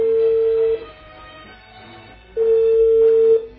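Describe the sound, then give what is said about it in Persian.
The ringback tone of an unanswered telephone call: two steady, fairly loud low tones, each lasting about a second, with a silent pause between them. “برای پیگیری این خبر زنگ زدیم به آقای رضازاده، شورای شهر.”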